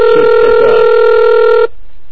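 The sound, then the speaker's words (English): A telephone rings after being dialed from a computer with terminal software: one steady, loud electronic ring tone lasting under two seconds cuts off abruptly, leaving a low hum. “I dialed up into this phone using Hyper Terminal.”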